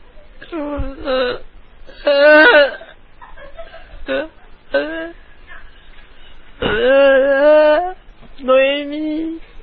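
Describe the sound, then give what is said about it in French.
A voice whimpering and sobbing in several wavering, high-pitched bursts separated by short pauses, loud and wordless. “Moi maintenant, je vais me mettre à pleurer.”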